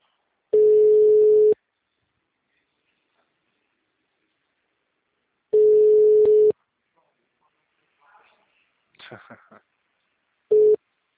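Telephone ringback tone on an unanswered call: steady, low, one-second beeps separated by long silences, two full tones and the start of a third. A few faint brief sounds come just before the last one.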